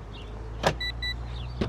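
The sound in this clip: Someone getting into a car makes two short door thuds, with a pair of brief electronic chimes between them, over a steady low hum.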